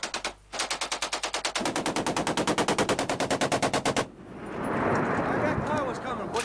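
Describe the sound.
M240 and .50 caliber machine guns fire in a combat firefight, with long, rapid, evenly spaced bursts of loud rounds for about four seconds, followed by a noisy stretch with voices.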